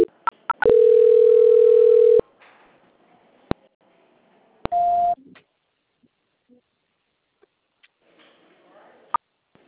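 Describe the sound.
A telephone line tone plays during a call transfer: sharp clicks, then a steady electronic tone for about one and a half seconds. A single click follows, then a shorter, higher tone, and the line falls nearly silent apart from scattered faint clicks.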